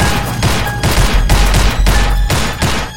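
Heavy gunfire from armed men fills the scene as a loud, sustained volley of shots. Rapid bursts repeat in a rough rhythm, with brief dips between volleys, and no voices are heard.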